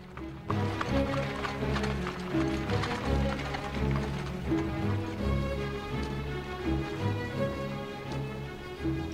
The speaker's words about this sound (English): As a horse-drawn carriage rolls by, Jonathan approaches Jared.